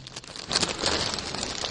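Trash crinkles as it is pulled from a pocket. A continuous papery crackle and rustle grows louder after the first half second and then carries on steadily on its own.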